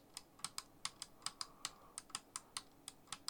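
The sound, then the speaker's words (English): A clicky computer mouse wheel is scrolled, producing many faint, crisp clicks in an uneven rhythm with short pauses between runs. “It's my new mouse. Switch? Ah! It's got a button on it. Where you can make the mouse wheel clicky or not clicky.”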